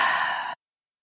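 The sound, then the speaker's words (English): A single deep exhale through a wide-open mouth during a guided breathing exercise: a steady, breathy rush of air lasting about half a second, then cut off abruptly into silence. “big inhale, in through the nose, hold, open that mouth wide and exhale.”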